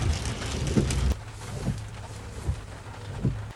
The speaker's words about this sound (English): So the heavens have opened